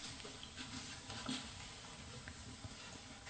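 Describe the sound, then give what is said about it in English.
Scone ingredients with spread margarine are rubbed and mixed in a bowl toward a fine breadcrumb texture. The result is a steady, faint, grainy patter and rustle that runs evenly throughout. “So into the bowl. So I mix this around until it resembles fine, fine breadcrumbs.”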